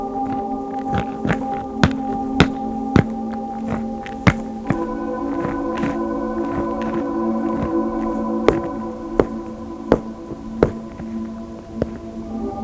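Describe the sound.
Footsteps on a small, fully frozen mountain lake at about 2,500 metres: many sharp, crisp taps on ice in an uneven rhythm over a steady low hum, with a pause midway before more steps.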